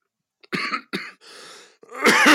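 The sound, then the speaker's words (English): Coughing fits from someone choking on a drink: a few sharp, harsh coughs in quick succession, then a breathy wheezing rasp and a final rough, voiced throat-clearing cough. No speech is heard. “Getting choked out, bro, by my drink instead of my weed like it should be, right?”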